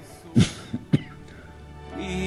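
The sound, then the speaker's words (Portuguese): A few sharp coughs during a live TV program: one strong throaty burst followed by two shorter hacks in quick succession, then quiet background. “Desculpa, programa vivo é assim mesmo, deu um tosse aí, me perdoe.”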